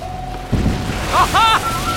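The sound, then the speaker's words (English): An audio drama effect of a meteor passing and crashing near a boat deck: a low thump, then warbling whistling tones over a steady hum. “Have you ever seen a meteor move like that or sound like that?”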